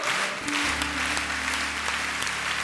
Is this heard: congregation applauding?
yes